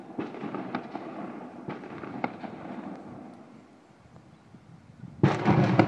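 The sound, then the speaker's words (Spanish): Festival fireworks and firecrackers explode during a village romería for Santa María de la Cabeza near Perillo, Oleiros, in Galicia, Spain: many sharp, crackling bangs overlap in a steady barrage, ending in a dense, louder burst with no voices. “observen la cantidad de fuego. Valencia se lleva la fama, pero aquí en Galicia la verdad que son muy ruidosos también a la hora de las fiestas. Y en casi todos los pueblos, casi todos los sitios, ocurren este tipo de ruidos.”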